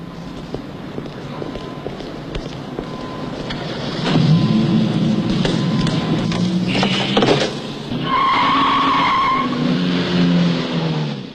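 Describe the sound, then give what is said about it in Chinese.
Tires squeal and skid as a BMW car drives near a parking space, a harsh noisy roar that grows louder after a few seconds and carries a sustained high squeal toward the end. “哦，这儿有一辆好车，宝马。你去看看，在20号停车位上。”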